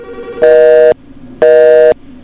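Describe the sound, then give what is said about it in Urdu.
Two steady electronic beeps of a telephone busy tone after a phone line drops. They are evenly spaced, loud and mid-pitched over a faint low background hum. “کسی وجہ سے ٹیلی phone line drop ہوگی، آپ ٹیلی phone کیجیے.”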